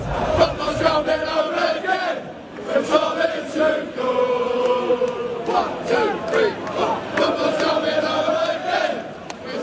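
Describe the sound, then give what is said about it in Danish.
English football fans sing together before a World Cup semifinal against Argentina, a loud mass of sustained chanted melody with rough crowd noise rising and falling in waves. “De engelske fans, de drømmer om pokalen, så fodbold endelig kan bringes hjem, som de synger her.”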